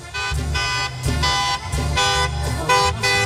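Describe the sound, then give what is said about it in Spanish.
A party bus horn honks on a street during a quinceañero celebration. It sounds a series of loud, sustained multi-tone blasts with brief breaks between them, making a rhythmic, tune-like pattern. “qué escándalo tenemos aquí en Ruiz Cortines. Pita.”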